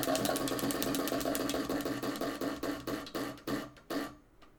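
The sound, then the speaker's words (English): A wheel of questions is spun, giving a rapid run of ticking clicks that steadily slow and spread apart until the wheel stops. “should i get into the wheel of questions here for you yes spin away all right”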